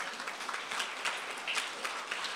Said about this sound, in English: Come on, let's give Jesus a clap offering.